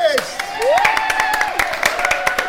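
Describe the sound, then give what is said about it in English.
Audience applause for comedians in a bar: sharp, many-handed clapping with distinct claps cutting through, alongside cheering voices and a whoop. “Ladies and gentlemen of the bar, give us a massive round of applause for Callum and George”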